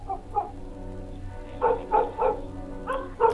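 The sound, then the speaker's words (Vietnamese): A dog barks faintly in the distance from the top of a staircase, several short, muffled barks coming and going in irregular bursts over a low steady hum. “tôi lại lùi dần cho đến khi nghe tiếng chó sủa văng vẳng ở cuối cầu thang bên trên. Tiếng chó sủa cứ văng vẳng, lúc có, lúc không.”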